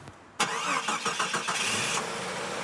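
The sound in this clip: A wrecked Toyota's car engine starts abruptly, cranking through a series of rapid rhythmic pulses before catching into a steady, mid-pitched idle, loud and without voices.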